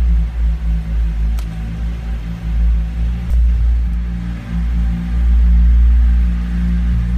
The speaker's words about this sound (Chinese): 咱们听声音。现在我的转速已经到两千转了，